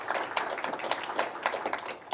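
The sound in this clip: An audience applauds to welcome an author at a book event, with dense, steady clapping at a moderate level that holds for the whole stretch.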